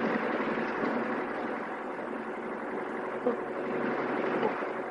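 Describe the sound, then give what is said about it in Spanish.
A vehicle driving along a road, heard as a steady, even engine and road rumble that stays at a constant, moderate level throughout. “Más tarde el vehículo continúa avanzando por la carretera.”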